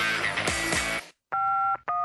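Telephone keypad dialing tones sound after a brief burst of other sound: first a long, steady dual-pitch beep, then a shorter one, both clear and loud.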